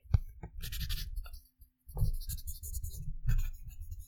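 Pen scratching on paper as someone writes something down, quiet, busy scratchy strokes that run in bursts with a short pause midway.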